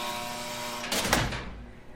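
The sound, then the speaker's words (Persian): A door being opened: a brief rattling, scraping burst midway through, set against a steady low hum that continues before and after. “این درو باز کن.”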